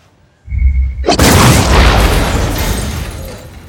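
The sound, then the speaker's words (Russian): A photon charge blast fired from a fist at a jukebox. A faint steady tone and low rumble lead into a sudden loud boom, whose dense roaring noise slowly fades away. “Палит кулаком в музыкальный автомат. И я должен заключить по пальбе, что ты не скрул? Фотонный заряд.”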